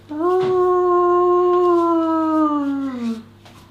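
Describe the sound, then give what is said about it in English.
A long single howl across the prairie: a clear, steady tonal wail that holds an even pitch for nearly three seconds and then drops away at the end. It is prominent, with nothing else around it. “It's not long at all until it's answered by a fainter howl.”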